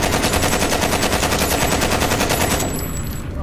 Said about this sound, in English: Now I hand you a machine gun. Run for your life! I'll cover you!